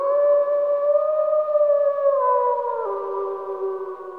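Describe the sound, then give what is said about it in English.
A long, wavering wolf howl heard in the distance, steady and full-toned, sinking gradually lower in pitch and dropping a step near the end, with no voices. “do you hear those wolves howling in the distance?”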